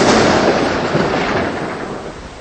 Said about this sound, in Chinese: 刚才还好好的，怎么就下雨了呢？